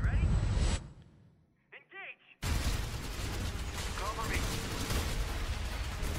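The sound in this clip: Gunfire in a VR first-person shooter video game: a dense, loud barrage of shots, a short quieter break with a few whistling tones, then heavy continuous firing to the end.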